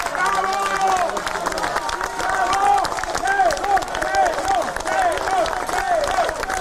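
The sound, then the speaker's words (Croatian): A crowd of citizens and opposition party members outside the special court building in Belgrade applauds and shouts "hero" to greet a police inspector. Steady clapping runs under rhythmic, repeated shouted phrases. “Aplauzom i uzvicima heroj. Ispred zgrade specijalnog suda u Beogradu građani i predstavnici dela opozicionih stranaka dočekali su 6. septembra Milana Isakova, jednog od policijskih inspektora koji je svedok u postupku Jovanjica.”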